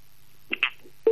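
An electronic telephone tone sounds after a dropped call, a few short, clipped beeps over an otherwise quiet line.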